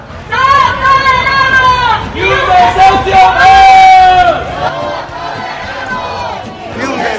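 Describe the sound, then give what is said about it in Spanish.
Protesters rally outside the Urbagestión headquarters in central Valladolid, chanting slogans together in loud, rhythmic bursts. The chants rise and fall in phrases over a backdrop of crowd noise. “Es el sonido de la concentración convocada frente a la sede de Urbagestión en el centro de Valladolid.”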